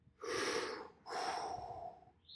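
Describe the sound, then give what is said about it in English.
A person exhales slowly, giving two long, breathy rushes of air about a second apiece with a short pause between them. The breath sounds are fairly loud and there is no talk. “And then finally, you exhale.”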